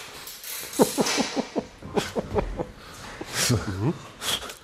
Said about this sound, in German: jetzt wird gerade so der Fisch, der Tisch, also die Tischplatte aus Holz, wird jetzt mit der Ratsche gerade festgemacht an den gusseisernen Füßen.